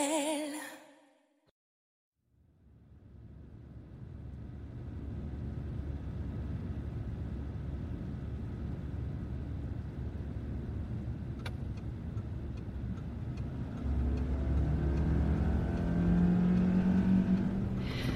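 A car driving fast gives a steady low engine rumble after a near-silent opening. The rumble grows slightly louder with a rising engine tone toward the end.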